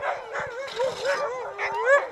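Excited sled dogs yip, whine and bark a few hours before a race. Many high, warbling yelps overlap in a continuous, agitated chorus.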